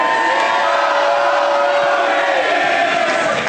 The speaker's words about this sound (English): Some of you thought, oh, this is the part where we cheer, and others knew to do the song.